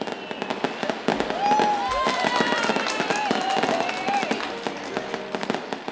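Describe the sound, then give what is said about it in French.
Fireworks for a New Year celebration: many sharp bangs and crackles in a dense, irregular barrage, mixed with whistling tones that streak and bend throughout. “Place au début des résolutions et au feu d'artifice, on fête le nouvel an.”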